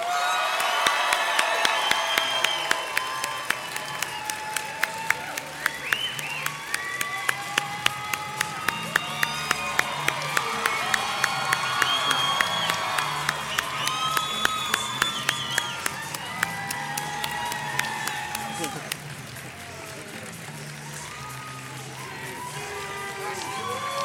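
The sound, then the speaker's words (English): Audience in Phoenix cheering, whooping and clapping to welcome two guests on stage, a dense and sustained wall of applause with scattered shouts that eases slightly near the end. “So ladies and gentlemen, please give a huge Phoenix welcome to Adam Baldwin and Robert Duncan McNeil.”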